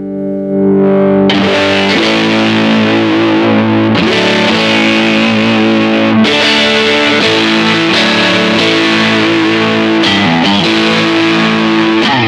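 A Stratocaster electric guitar with 10.5-gauge strings, played through an effects pedal on the switch-down setting. Heavily distorted, squelchy chords are struck a few times, each left ringing thick and sustained at high volume.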